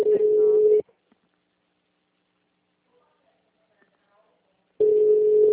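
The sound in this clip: Telephone line tone as a call begins: a steady, level buzzing tone at a fixed pitch sounds for under a second, then near silence for about four seconds before the same tone returns.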